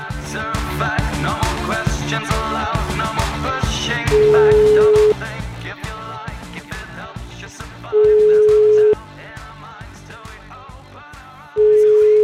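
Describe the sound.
Telephone tones sound while a call is being placed, with three long, steady, loud beeps of constant pitch cutting in over busy background music.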